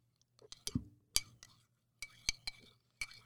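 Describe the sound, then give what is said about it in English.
A spoon stirs and clinks against its container, giving several sharp, bright taps at irregular intervals with quiet gaps between them. “All right, this is the moment of truth, everyone. Listen to the stirring sounds.”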